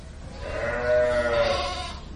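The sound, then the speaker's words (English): Sheep on a farm that supplies milk for cheese gather in a barn before milking. One long, wavering bleat rises clearly above a soft, steady background murmur of the flock. “The sheep know what to do. They gather in the barn,”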